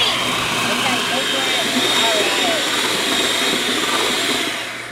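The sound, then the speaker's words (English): An electric hand mixer beats an egg mixture with a continuous, loud motor whir and a dense buzzing hum, steady throughout and tapering slightly at the very end. “but you can just use your hand mixer”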